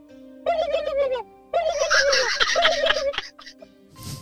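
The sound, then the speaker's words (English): A turkey gobbles in two rapid, rattling bursts, the second longer and brighter than the first, followed by a softer, rougher sound at the very end. “Turkey noise, please.”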